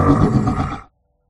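A dragon's final roar in a fantasy role-playing game as it is struck through the spine, a single loud, rough, whinny-like bellow lasting under a second that cuts off abruptly into silence.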